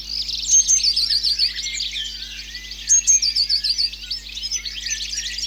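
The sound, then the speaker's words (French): A blue tit calls with bright, high chirping phrases: quick thin notes followed by rapid trills, repeated twice against a busy background of other high bird chatter and a steady low hum. No voices are heard. “La mésange bleue est très vive et pleine d'énergie. Toujours en mouvement dans les arbres. Mésange bleue.”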